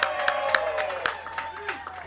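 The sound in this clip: Studio applause welcoming a new Philadelphia Eagles running back: a short burst of scattered clapping with a voice faintly beneath it.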